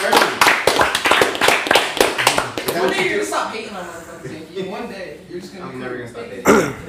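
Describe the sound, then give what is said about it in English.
Round of applause among a group chatting about making beer: a quick, dense run of sharp handclaps for about three seconds, then fading under ongoing talking voices. “Big round of applause.”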